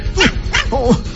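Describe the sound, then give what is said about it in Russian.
A dog barks in a few quick, high, yelping bursts while chasing a fox around a table, each bark sweeping in pitch, with no other sound beside it. “Пес с лаем преследовал его по пятам.”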